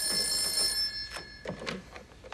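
A telephone bell rings in a police station office, a bright, sustained metallic trill that cuts off after under a second, leaving faint quiet handling sounds behind.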